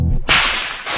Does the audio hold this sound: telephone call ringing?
no